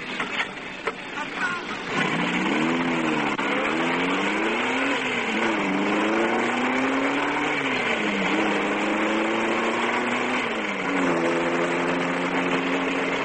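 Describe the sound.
A car engine starts up as a police sergeant drives off, climbing into a steady drone after a couple of seconds. Its pitch rises and dips repeatedly through several gear changes, loud and continuous to the end.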